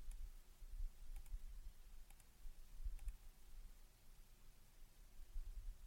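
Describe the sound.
Faint computer button clicks: a few sparse, sharp ticks stand out over a quiet low hum, with long still gaps between them.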